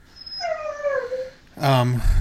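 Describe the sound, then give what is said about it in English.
A dog whines and howls: a long, thin whine slides downward, then a louder, fuller howl breaks in. “I sure hope you can hear my fucking dog, by the way. You have a lovely dog.”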